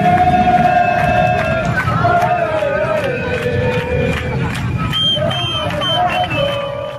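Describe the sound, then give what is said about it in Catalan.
Crowd noise rises from a Barcelona football club parade through city streets: a steady, loud hubbub of many voices with a few sustained tones running through it. “És la rua del Barça que ahir passava pels carrers de la ciutat”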